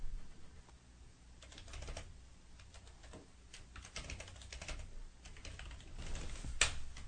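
Typing on a computer keyboard: a steady stream of many quick keystroke clicks in an uneven rhythm, with a few sharper, louder taps near the end and no talk.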